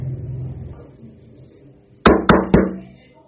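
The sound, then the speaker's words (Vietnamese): Three sharp knocks on the closed door of a private restaurant room, evenly spaced in quick succession and loud against an otherwise quiet background. “Bỗng có tiếng gõ cửa.”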